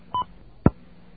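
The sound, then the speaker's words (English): A single telephone keypad tone dials zero: a short, steady two-pitch beep, followed moments later by a sharp, low thump. “Well, I don't have a brochure, so I can't locate it. So I guess I have to dial zero.”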